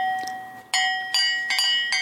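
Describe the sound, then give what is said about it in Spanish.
A large cowbell rings with several sharp metallic strikes, each leaving a bright, sustained ringing tone that fades before the next hit. The ringing is loud and stands alone. “Oh, God. That is so loud. A cowbell.”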